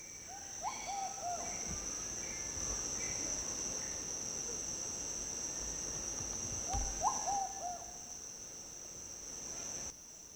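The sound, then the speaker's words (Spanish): Dove calls from birds traditionally named Huaytafofo: two short bursts of soft, hooting coo notes, one near the start and one about halfway through, over a steady high insect buzz. “Que acabaron de escuchar fue unas palomas que canta así, falta poco, decimos nosotros. Nombre tradicional es Huaytafofo.”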